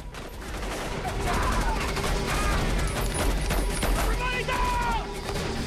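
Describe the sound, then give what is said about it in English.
Heavy gunfire as soldiers fire on an oncoming rebel assault force: a dense barrage of rapid shots and booming reports that continues throughout, with raised voices audible at a few points. “He reaches his comrades, who continue to fire against the oncoming rebel assault force.”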